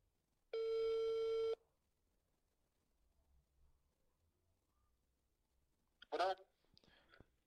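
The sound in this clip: A telephone rings while the caller waits for an answer: one buzzy, harmonic ring lasting about a second, followed by a long near-silence and then a brief voice.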